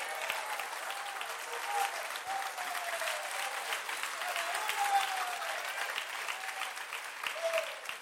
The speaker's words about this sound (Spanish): ¿Puede dar un aplauso al Señor?